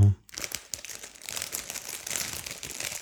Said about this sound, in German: Gib mal die Tüte rüber.